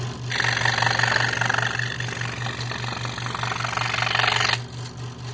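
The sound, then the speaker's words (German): An electric saw in a carpenter's workshop is switched on and runs with a steady, buzzing motor whine for about four seconds before cutting off, over a constant low hum. “Ja, wir haben hier eine elektrische Laufsäge. Ich schalte die mal an, dann kann man das hören, wie die geht.”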